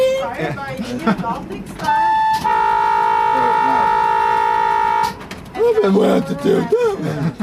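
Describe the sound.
A train horn sounds one long, steady blast of about three seconds, a bright held chord, with people talking in the stretches before and after it.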